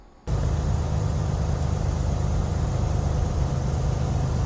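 Cars driving on a freeway in dense fog: a loud, steady roar of traffic and road noise starts abruptly and holds unchanged throughout.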